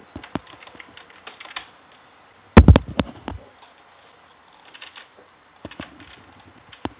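Keys clatter on a computer keyboard as an email address is typed, in irregular clusters of light clicks with a louder dense burst in the middle and pauses between runs.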